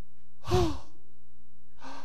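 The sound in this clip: A single voice imitates a wedding crowd's gasp of surprise with a breathy, voiced 'oh'-like sound, followed after a pause by a second, softer breath.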